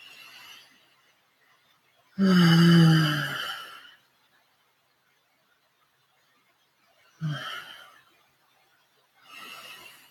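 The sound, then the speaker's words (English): Deep breaths, taken alone with long pauses between them: the first is a long, loud exhale with a voiced tone, followed by shorter, softer airy breaths. “Just going to take a few breaths.”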